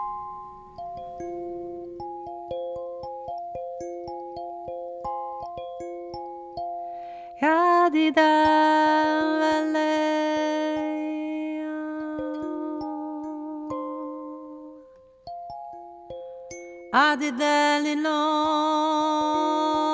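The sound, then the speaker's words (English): A little kalimba is played, its plucked notes bright and ringing as they decay in a gentle melody. Fuller clusters of notes sound at a couple of points. No one speaks. “This is, for example, a little kalimba, and it sounds like this.”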